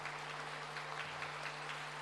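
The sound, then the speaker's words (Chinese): Audience applause at a large live dharma assembly: a dense, steady wash of clapping that holds at an even level for about two seconds over a low, constant hum, with no voices. “让我们以最热烈的掌声再次感恩大慈大悲的观世音菩萨，感恩大慈大悲的卢军宏台长”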